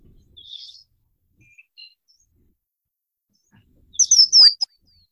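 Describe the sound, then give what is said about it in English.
Canyon wren song: a few faint high chirps, then a brief, brighter burst of high notes near the end with a delicate downward run. “Above the roar, hear the song of a canyon wren. A smooth stretch, drifting and resting, hear it again, delicate downward song.”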